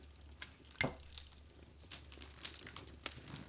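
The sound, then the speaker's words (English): Sticky tape being torn and pressed onto wrapping paper while a gift is wrapped: one sharp tearing burst early on, then scattered crinkling and rustling of paper and tape, fairly quiet and with no voices. “And you can hear every piece of tape. There goes tape. And now it gets applied.”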